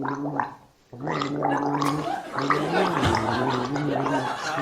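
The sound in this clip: A person gargles a song, producing a bubbling, voiced gurgle that follows a melodic line. It breaks off briefly near the first second, then carries on loudly to the end.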